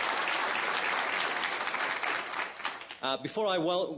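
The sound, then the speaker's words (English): Audience applause for an event organizer: dense, steady clapping for about three seconds, after which a voice begins speaking. “But he's done a tremendous amount, so I'd like to give a hand to Steve.”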